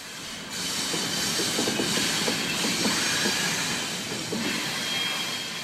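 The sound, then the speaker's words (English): A train passes in Ballard, recorded from beneath a bridge: a loud, steady rumble with rhythmic clickety-clack wheel beats and a bright metallic hiss, easing slightly toward the end. “Thanks to Weekday listener Ben for standing under the bridge and recording that familiar sound for us. I do love the sound of a good train.”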